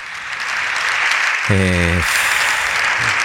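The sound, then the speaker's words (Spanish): Partido Popular deputies in the Congress of Deputies stand and applaud Alberto Núñez Feijóo. The loud, steady applause is broken only by a brief voice partway through. “Os deputados en pé, os deputados do Partido Popular aplaudindo a Alberto Núñez Feijóo”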